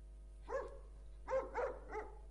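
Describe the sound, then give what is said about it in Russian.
Faint dog barking: a few short, sharp barks, one isolated and then a quick cluster of three, quiet and without talk. “Собаку убери, говорю.”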